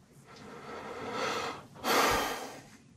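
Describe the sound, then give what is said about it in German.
A snorting breath: a longer, rising breath is followed after a brief pause by a sharper, louder snorting puff of air, both breathy and noisy with no talk. “Schnauf.”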